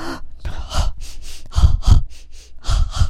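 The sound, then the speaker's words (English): Quick double breaths, short sharp inhales and exhales coming in rapid pairs and repeated many times, fairly loud and breathy with no talk. “If you're falling asleep, do a double breath.”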